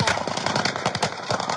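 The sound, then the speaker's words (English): Gunfire from several guns at a shooting spot rattles as a dense, loud stream of sharp overlapping cracks and bangs, continuous and irregular throughout. “You can hear the guns in the background”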